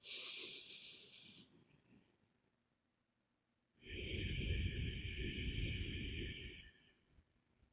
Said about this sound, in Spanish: Simplemente si puedes, ponte las manos en tu corazón y vamos a inhalar y exhalar profundamente una vez.